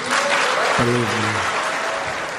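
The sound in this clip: An Israeli audience applauds a Donald Trump speech with steady, dense clapping throughout, and a brief voice is heard over it.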